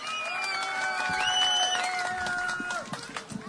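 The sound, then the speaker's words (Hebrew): Audience applause and cheering for the deputy mayor of Petah Tikva at an event hosted at a high school. Steady clapping runs under sustained tonal cheers and voices for the whole stretch, fading and turning patchy near the end. “תנו לו הרבה מחיאות כפיים לאוריאל בוסו.”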